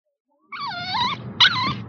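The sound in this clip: A pet dog whimpers in two high, wavering whines, the first longer than the second, with faint low noise underneath.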